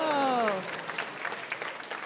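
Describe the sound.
Studio audience applause on a word-game quiz show after a correct answer, a short burst of dense clapping that quickly settles into a lighter, uneven patter.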